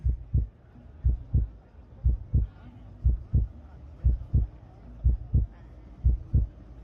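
A pounding heartbeat, seven deep lub-dub pairs thudding in a steady rhythm about once a second, low and muffled with nothing else over it.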